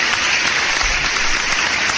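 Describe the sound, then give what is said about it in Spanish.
Applause of dense, steady clapping runs evenly for about two seconds with no voices over it. “Gracias, gracias. Los únicos aplausos son para ustedes por acompañarnos una hora más aquí en este su programa Rock and Rollo.”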